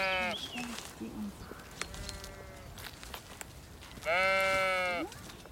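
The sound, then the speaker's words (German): Sheep bleat from a stable for sheep and alpacas near a house on a sloping garden plot at a forest edge. A few bleats sound, ending with one long, loud, wavering bleat. “Nah am Haus der Stall für Schafe und Alpakas.”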